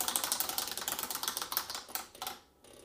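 A board game spinner whirs through a rapid run of light plastic clicks that gradually space out and fade toward the end, faint and heard alone.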